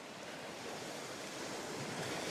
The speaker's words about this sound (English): Just the waves beating against the cliff.